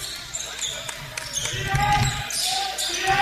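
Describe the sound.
A basketball is dribbled during a game, with a few sharp bounces under continuous commentator talk and background court noise.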